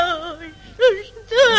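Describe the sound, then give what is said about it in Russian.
A woman crying in three wavering, sobbing vocal bursts with quivering pitch, the first drawn out and the two later ones shorter and louder. “Да полно плакать.”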